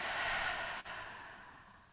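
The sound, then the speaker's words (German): A single slow breath taken in through the nose and released through the mouth during guided meditation: a soft, airy rush, quiet throughout, with a brief break near the middle and a fading second phase. “lass uns hier nochmal einen Atemzug gemeinsam nehmen über deine Nase ein und über deinen Mund aus.”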